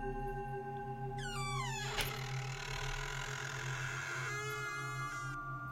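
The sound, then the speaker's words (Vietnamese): Creaking hinges of a slowly opened room door: two drawn-out, whining squeals, the first gliding downward in pitch, set against a steady low hum. “Tiếng bản lề kẽo kẹt vang lên, cảm giác nghe chói tai.”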